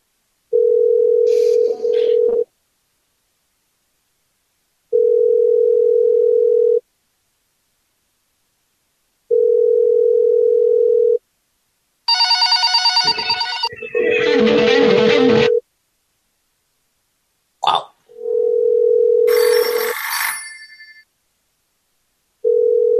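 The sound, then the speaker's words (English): Ringback tone of a call placed to a bank: a steady, low electronic beep that repeats at regular intervals, broken up by brief bursts of other electronic tones and clatter. “Almost sounds like fake ringing.”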